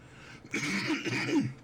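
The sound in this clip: Throat clearing from a tickle at the back of the throat: a short, rough, voiced rasp in two pushes, moderately loud and alone.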